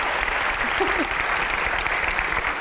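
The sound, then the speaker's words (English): Steady applause from a theatre audience at an event with an author, a dense, even patter of many hands clapping that holds at a constant level throughout. “But please give a big round of applause to Sir David Hare.”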